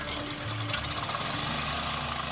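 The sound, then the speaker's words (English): An air compressor pumping air into fabric lift pontoons attached to trap skids resting on the sea floor; a steady, even mechanical drone with a fine rapid pulsing that holds at a constant level throughout. “The compressor pumps air into fabric pontoons attached to the trap skids, which rest on the sea floor.”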